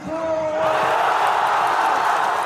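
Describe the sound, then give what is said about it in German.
Thousands of football fans cheer at a public viewing in Gaza City as Egypt takes the lead against Argentina in a World Cup match. A dense, loud roar of shouting voices swells and holds steady. “Das ist der Sound der Hoffnung mitten im Gazastreifen. Ägypten geht im WM-Spiel gegen Argentinien in Führung. Tausende Fußballfans beim Public Viewing in Gazastadt sind völlig aus dem Häuschen.”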